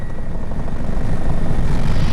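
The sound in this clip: Steady roar of an emergency medical helicopter that carries a doctor and a paramedic to callouts around Hamburg: a loud, even rotor and engine drone holds without a break for about two seconds, with no voices.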